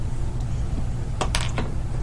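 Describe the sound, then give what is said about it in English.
A six-sided die is rolled for a tabletop game, a brief burst of a few light clattering clicks over a low background hum. “Just roll a d6 for me. Just one d6.”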